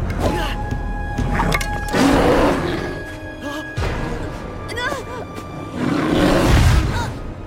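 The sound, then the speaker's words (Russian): A female polar bear roars while rearing onto her hind legs. Harsh, loud roars and growls come in several surges over a rumbling, noisy background. “Медведица рыча встает на задние лапы.”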